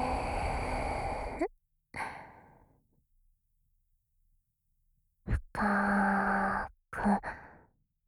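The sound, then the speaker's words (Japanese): Deep breaths from a person, a few long airy rushes separated by pauses, one carrying a faint voiced tone. “行くよ。息を吸って”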